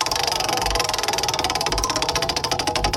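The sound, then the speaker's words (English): Clicking of a country music trivia prize wheel spinning: rapid, evenly spaced ticks that run continuously, fairly loud and alone. “You ready to spin the Hoot Owls Country Music Trivia Prize Wheel and get you that country music trivia question”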